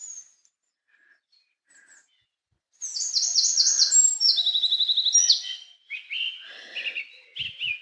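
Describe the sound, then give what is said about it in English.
Birdsong in a forest by a brook: after a near-silent start with a few faint chirps, bright rapid trills and whistled phrases burst in, followed by several shorter chirping calls. “I'm surrounded by birds and you can hear the water from the brook and the little river behind me.”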